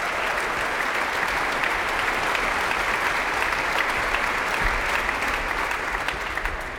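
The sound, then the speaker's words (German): Enthusiastic concert applause as an ensemble returns to the stage at the end of the evening: a loud, sustained roar of many hands clapping at an even level for several seconds, with a faint crowd murmur underneath. “Das Ensemble hat gerade noch einmal die Bühne betreten und nimmt den begeisterten Applaus des Publikums entgegen.”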